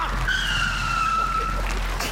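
A car brakes hard, its tires letting out a steady high-pitched squeal for about a second and a half over a low, constant rumble.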